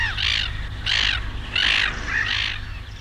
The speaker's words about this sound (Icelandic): það er líka svo mikið af þessum fugli hérna